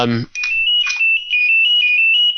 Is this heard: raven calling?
no